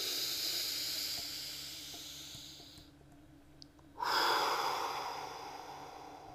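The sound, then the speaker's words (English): A deep breath in during a guided anxiety tapping exercise: steady hissy breathing, a short quieter gap, then a sudden loud rush of inhaled air that slowly fades. No talking. “Take a deep breath in.”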